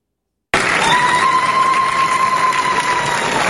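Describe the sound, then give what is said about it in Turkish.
Crowd applause and ululation as party members celebrate a new framework law after a historic parliamentary session. A brief silence is followed by loud, dense clapping that starts abruptly, with a sustained high trilling tone riding steadily above it. “Alkışlar ve zılgıtlarla tarihi yasayı kutladılar.”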